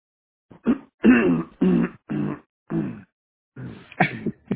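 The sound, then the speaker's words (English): Someone clears their throat over a conference call line in a string of many short, harsh, choppy bursts with brief gaps between them. “Please mute your line if you can. The person that just cleared their throat.”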